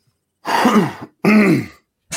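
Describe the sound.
Throat clearing and coughing from a person with a rough voice: two drawn-out, rasping, guttural clears in quick succession, then the start of a third, loud and alone.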